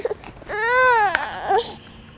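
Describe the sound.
A fed, sleepy baby fusses and cries: one strained wail that bends up and then down, followed by a softer short whimper, with no talking.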